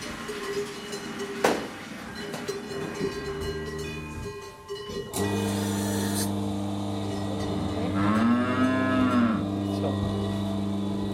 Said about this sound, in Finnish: Navettaamme tuli täksi kesäksi aivan uusia outo lehmä Lutsernista. Saa nähdä, miten se sopeutuu tänne meidän joukkoomme.